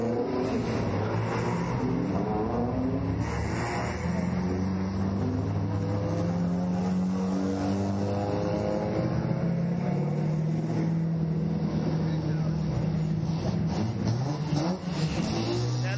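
A Mazda RX3 with a rotary engine runs continuously, its buzzing, raspy engine note wavering up and down with the revs for the whole stretch.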